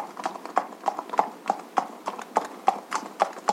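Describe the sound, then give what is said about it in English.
Unicorn hooves clip-clop into a cave in a steady, even walking rhythm, with many sharp, moderately loud hoofbeats and no other sound. “And in came the Champion of Reason on the unicorn.”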